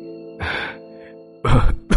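A man in a choking coughing fit, with a few harsh, rough bursts separated by short pauses over a steady faint background tone.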